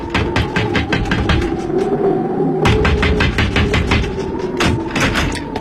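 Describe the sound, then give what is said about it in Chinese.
Repeated knocking on a door in a drama scene, as people keep rapping to wake someone inside. Many sharp, even knocks fall in a steady, insistent rhythm throughout, loud and unbroken, with no voices over them. “你们有完没完啊？不断的敲门，你还让人睡觉吗？”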